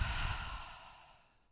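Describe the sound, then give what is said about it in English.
A single slow exhale follows a breath drawn in through the nose, a soft breathy rush that fades steadily to near silence with no other sounds. “gonna do one more breath in through the nose and exhale”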